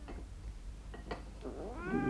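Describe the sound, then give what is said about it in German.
A fat cat meowing while being fed gristly scraps under the tablecloth at a breakfast table: a few faint, short mews followed by a clearer, drawn-out meow at the end, with no talking. “schiebt unter den Tischtuchfransen die knorpeligen Stücke ihrer dicken Katze zu.”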